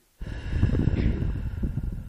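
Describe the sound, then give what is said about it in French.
A forceful exhalation, breath blown out hard during a relaxation breathing exercise meant to release tension. After a moment of silence, a loud, steady, breathy rush starts and carries on unbroken until the end. “Nous pouvons souffler plusieurs fois d'affilée.”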